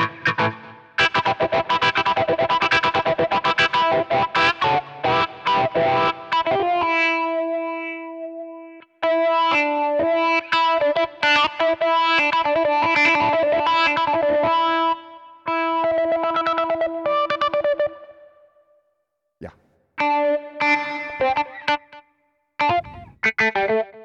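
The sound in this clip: Wah-wah effect with echo on distorted, chorused played notes, loud, sustained tones in several phrases broken by brief silences, the filter sweeping the tone while echoes trail after the notes.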